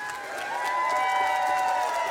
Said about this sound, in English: We love you. Round of applause.